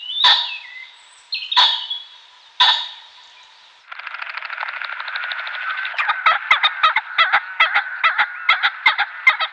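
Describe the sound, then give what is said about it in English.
Pheasant calling: three loud, harsh honking crows about a second apart, followed by a long run of rapid, rhythmic chattering notes that break into evenly repeated pulses. “Better learn the pheasant, so you don't think it's something else.”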